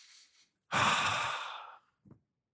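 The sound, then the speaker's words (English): A deliberate deep breath: a faint, airy inhale, then a long, steady audible exhale that slowly tapers off, followed by a brief soft breath sound. “Gather our scattered attention back to the breath. Take a breath.”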